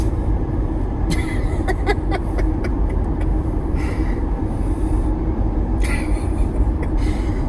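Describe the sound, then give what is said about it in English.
A driving car gives a steady, broad rumble of road and engine noise that continues throughout, with a few short clicks and brief bursts over it. “Okay, I'm driving.”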